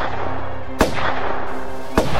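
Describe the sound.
Two sharp pistol shots crack out during a First World War trench charge. The two loud, abrupt reports are about a second apart over a steady, constant background sound.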